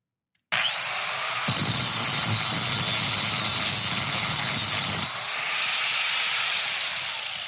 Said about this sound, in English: this next one I think you're going to recognize as well. The grinder.